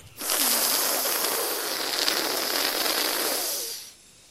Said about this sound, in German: Man drückt die Unterseite der Zunge gegen die Schneidezähne und drückt dann die Zunge etwas weiter nach vorne und saugt dann die Luft seitlich ein.